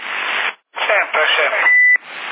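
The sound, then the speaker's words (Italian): A short, steady electronic beep from a CB radio sounds near the end of a stretch of narrowband radio chatter, where people talk over the channel. “Aspetta che stacco il bip a vedere, guarda adesso. Adesso non è fatto il bip perché sta andando male.”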